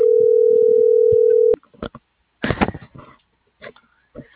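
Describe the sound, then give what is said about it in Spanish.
A telephone dial tone sounds while an operator is being called: a loud, steady hum holds for about a second and a half, then stops abruptly, followed by scattered clicks, brief handling noises and a sniff. “Ya le estoy marcando al operador, sí.”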